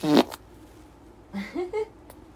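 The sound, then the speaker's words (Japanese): A short fart opens with a brief, low, buzzing burst, followed after a pause by a few faint, short vocal sounds. “じゃあおなら出そうなので撮ってきます。”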